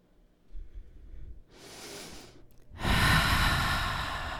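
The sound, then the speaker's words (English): Deep yoga breathing during a stretching workout: a soft airy inhale, then a long, loud, breathy exhale that carries steadily to the end, after a faint low rumble at the start. “Breathe and you're doing it fine. Let's take about five more breaths here. Relax with every exhale.”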